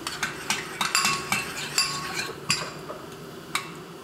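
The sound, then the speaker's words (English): Clinking of a utensil against a dish as a dipping sauce of vinegar, soy sauce and chopped scallion is mixed, giving many light, bright taps at an uneven pace that slowly thin out. “It's like two parts vinegar and one part soy. And the chopped scallion. Yes, almost like that. Uh-huh. And then I'll mix it.”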